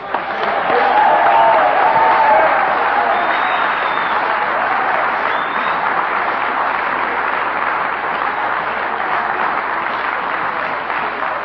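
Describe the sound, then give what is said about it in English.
Applause from the crowd at a Narcotics Anonymous meeting as a speaker is welcomed: loud, dense, steady clapping that runs unbroken for about eleven seconds and eases only slightly toward the end. “let's give him a good Narcotics Anonymous welcome.”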